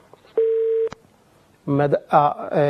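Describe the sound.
A telephone line tone sounds once after a call cuts off: a single steady, moderately loud beep of about half a second, followed by a pause and then speech.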